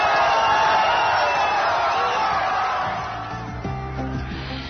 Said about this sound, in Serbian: evo malo atmosfere iz fan zone u Kaljiningradu, gde je više hiljada navijača pratilo prvu utakmicu na mundijalu. Evo kako su proslavili peti gol ruske reprezentacije.